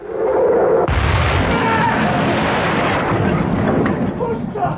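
Cannon fire in a naval battle, with a ship run aground under fire from a fort: a heavy boom bursts in, then a loud, continuous roaring rumble of gunfire and blasts fills the rest.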